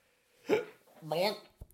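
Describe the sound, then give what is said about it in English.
A person hiccups, an abrupt and fairly quiet jolt among brief voiced sounds. “what an appropriate hiccup there.”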